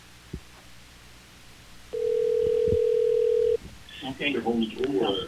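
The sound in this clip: Telephone call to a contest winner: one steady, mid-pitched line tone sounds for under two seconds after a quiet start, then stops and voices follow.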